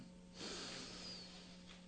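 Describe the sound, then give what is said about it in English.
A single deep breath drawn in during a guided breathing exercise: after a short pause, a soft airy hiss swells and holds for over a second, faint over a low steady hum. “Let's go ahead and take another deep breath in.”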